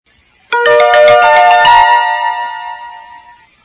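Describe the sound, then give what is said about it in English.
School bell ringing, a bright electronic tone struck rapidly over and over for about a second, then holding as one loud, steady ringing note that slowly fades away. “When I got to school, the final bell was ringing.”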